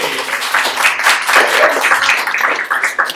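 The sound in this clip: Loud applause from an audience welcoming performers onto a stage: many hands clapping in a thick, irregular patter that surges and dips without a break.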